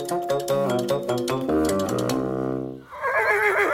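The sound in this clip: A stubborn, bad-tempered pony whinnies at a riding stable: a loud, long neigh of stacked, quavering tones that slide downward for nearly three seconds, followed by a rougher, noisy breathy sound.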